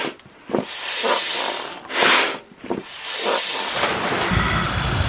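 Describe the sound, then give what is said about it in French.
Whooshing puffs of air from a large bellows worked by several men, pumping fresh air through a hose into an early diving helmet in Brest. A few rhythmic breathy bursts give way to a steadier rushing hiss. “Et maintenant, mes amis, actionnez le soufflet.”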